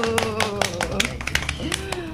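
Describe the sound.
Handclaps mark a first-anniversary celebration, with many quick, sharp claps in a loose rhythm. The claps sound under continuous talking voices.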